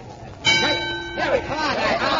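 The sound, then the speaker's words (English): A boxing match bell strikes once to start the round, a bright metallic clang whose ringing tone holds for under a second before giving way to a noisier, lower mix. “And there's the bell.”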